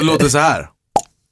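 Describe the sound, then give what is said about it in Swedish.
A single short champagne cork pop sound effect, sudden and bright, heard alone in silence right after a voice speaks. “men jag önskar du hade haft en champagnepopp eller någonting.”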